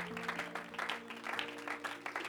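A church audience claps in uneven, energetic bursts over sustained, steady held musical tones, the clapping pulsing loud and soft throughout.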